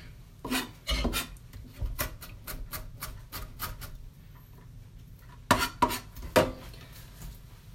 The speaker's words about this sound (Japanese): まず縦に千切りにしてそれをまた寝かせて切った後にこうザクザクザクザクってやる